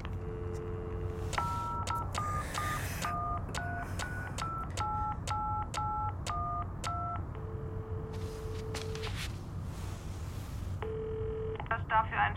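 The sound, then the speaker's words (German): An answering machine's signal tone on a law firm's phone line: a long steady beep follows a rapid run of keypad-like dual tones. A shorter beep comes near the end, and constant background noise runs throughout. “Sie haben die Möglichkeit, nach dem Signalton eine Nachricht zu hinterlassen.”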